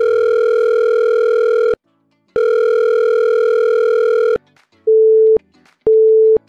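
Telephone line tones ring out before a voicemail greeting: two long, loud buzzing tones separated by a short gap, then two brief, lower-pitched beeps, with no voices.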